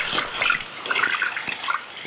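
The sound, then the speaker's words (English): Running tap water as hands are washed in a hospital, a steady splashing hiss with small fluctuations as the hands move through the stream, with no voices. “Washing our hands is more helpful than we think.”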